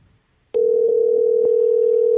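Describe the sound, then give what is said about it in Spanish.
Telephone ringback tone during an unanswered call: one steady, mid-pitched electronic tone starts after a short silence and holds unbroken to the end. “No puede ser que no nos coja el teléfono.”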